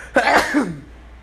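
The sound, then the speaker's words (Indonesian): A single sneeze: a sharp, breathy burst followed by a short voiced tail that drops in pitch, then near silence. “gue bersin nih, ngeluarin dosa”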